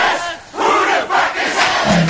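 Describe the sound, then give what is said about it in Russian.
A crowd in a cafe in the Netherlands shouting along to a song chorus while the music is turned down, loud massed voices swelling in a few bursts over a steady roar. “На припеве диджей приглушал звук, и, подпевая, толпа радостно кричала:”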